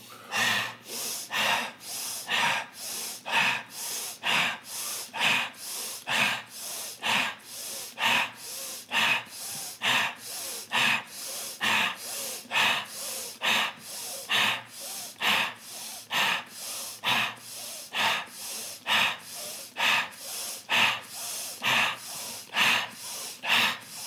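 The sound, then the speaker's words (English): Rapid, rhythmic breathing in a breathing exercise: many forceful nose inhales and mouth exhales at roughly one per second, steady and loud, with no talking. “Back to the rapid breath. Here we go.”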